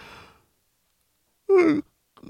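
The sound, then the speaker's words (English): A person yawns: one brief voiced exhalation whose tone slides downward in pitch, moderately loud and standing alone between quiet stretches. “I know, it's early in the morning. It's like 10 a.m. and I'm yawning already. I'm yawning.”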